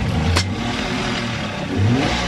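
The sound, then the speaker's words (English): A tour boat's motor starts up on a lagoon, a loud, rough mid-pitched engine drone that revs twice, swelling briefly near the start and again toward the end. “He fires up the motor and ferries a group of travelers toward one of the islands.”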